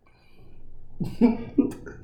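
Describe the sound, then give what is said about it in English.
Coughing from someone who nearly choked on wine: a few harsh, throaty coughs in quick succession, moderately loud and heard alone. “Sorry, I almost choked on this wine. Excuse me.”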